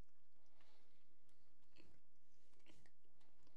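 Chewing on a sparkling strawberry, artificially flavored cake bar: faint, soft crunching and mouth sounds, with a few slightly sharper bites standing out.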